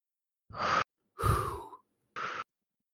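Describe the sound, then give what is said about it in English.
A person taking a deep breath in and then exhaling: three separate breathy, airy sounds, with the middle one longest and strongest, and no speech between them. “Why don't you take a deep breath in with me and exhale with me?”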